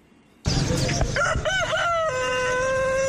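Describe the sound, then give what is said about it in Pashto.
A rooster crows at a busy pet bird and animal market selling birds, chickens, dogs and pigeons. It gives one long, loud, wavering crow that settles onto a steady held note, over constant market noise. “د پندای خار کالج روډ دا بازار د رنگارنګ مرغو، چرګانو، سپو او پکورونو کې د پالونکو زناورو ډک دی.”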